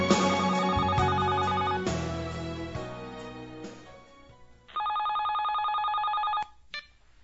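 Telephone ringing: after louder tones fade, one sustained electronic ring of about a second and a half sounds steadily, followed by a brief second ring that is cut short.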